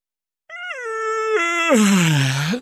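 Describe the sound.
Loud, drawn-out yawn from a chipmunk familiar: one long tonal voiced exhale lasting about two seconds, its pitch stepping downward in stages, then turning up briefly just before it cuts off, heard alone.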